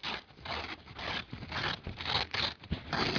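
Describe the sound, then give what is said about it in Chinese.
A printed paper sheet being torn off: a run of rough, crackling rips in short bursts, some brief and some drawn out, moderately loud with no voices. “你将它撕下来，将它直接是撕开它，”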